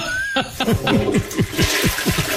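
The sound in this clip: A toilet flushes with loud, rushing water and a run of many rhythmic gurgling surges, continuous from start to end with no talk.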